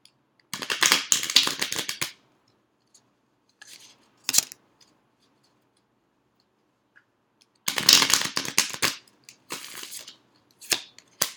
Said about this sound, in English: if a card jumps out, I always think it's significant. I am a pretty good shuffler,